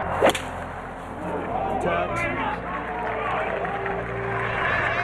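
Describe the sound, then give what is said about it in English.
Phil Mickelson's golf shot at a tournament: a sharp whip-like strike near the start, then a swell of crowd noise with some clapping, with voices talking over it. “And an unbelievable shot by Mickelson. The greatest shot of his life.”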